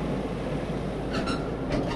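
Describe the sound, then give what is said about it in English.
18-wheeler tank trucks at a gasoline loading terminal rumble low and continuously, broken by a few short bursts of hissing air near the end. “This is the Chevron Texaco Galena Park Terminal on the eastern side of Houston. 18-wheeler tank trucks fill the 5 loading bays here, and there's a long line of trucks behind them.”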